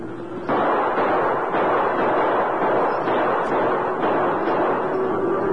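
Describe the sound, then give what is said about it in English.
Gunshots ring out during a cattle stampede toward quicksand on a western trail. A few sharp cracks cut through a dense, continuous roar that stays loud throughout. “Keep shooting, Tonto.”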